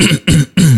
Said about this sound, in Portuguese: tem que desligar o microfone, não tem? Pra dar aquela rapada na garganta, de manhã é complicado, rapaz